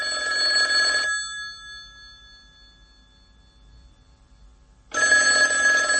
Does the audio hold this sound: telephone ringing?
yes